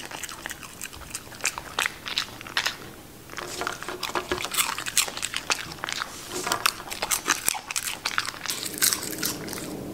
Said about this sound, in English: So we can enjoy some Shiba Inu. Some ASMR. Some Shiba.